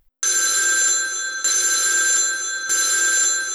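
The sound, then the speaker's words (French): A telephone bell rings in three long, continuous bursts, loud and bright, with a steady metallic trill and no voices. “c'est le téléphone qui sonne”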